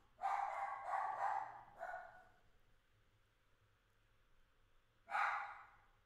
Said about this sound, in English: Excuse the dog.